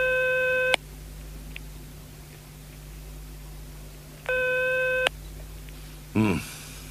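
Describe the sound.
Telephone ringback tone of an unanswered outgoing call, two steady buzzing rings about four seconds apart with a faint low hum in the gaps.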